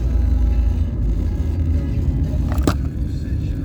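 A car takes a sharp, dangerous curve, its engine and road noise forming a steady low rumble, with a brief higher burst of noise near the end.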